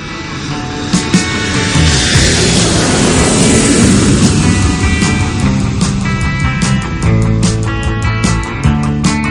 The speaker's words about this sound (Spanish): Abróchense los cinturones que despegamos de nuevo.